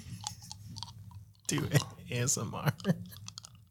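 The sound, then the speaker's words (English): Close-up chewing right at a microphone, full of wet teeth clicks, smacks and tongue slurping in an uneven, busy run of sharp sounds, with a voice murmuring underneath. “It's not the best idea on the microphone. It's going to pick up all the teeth clicks. All the tongue slurping.”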